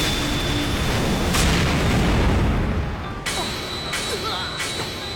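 A blue fireball spell explodes in a broad, roaring boom that holds at a steady loudness, then gives way to a few sharp cracks near the end.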